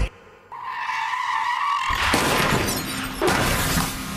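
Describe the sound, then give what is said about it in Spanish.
A car crash sound effect: tyres squeal in a sustained skid, then a loud crash of smashing and breaking, with a further impact shortly after before it fades. “Esa es la cantidad de accidentes automovilísticos que destrozan vidas en toda la ciudad de Nueva York cada mes, en una fracción de segundo.”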